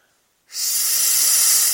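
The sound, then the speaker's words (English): A hard blow of breath into a hand held in front of the mouth: a brief silence, then a loud, steady rushing hiss that starts abruptly and holds to the end. “you put your hand in front of your mouth, and then you blow as hard as you can.”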